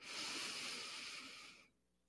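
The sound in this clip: A deep breath is drawn in during a guided grounding breathing exercise. A quiet, steady, airy hiss lasts nearly two seconds and then cuts off, heard alone.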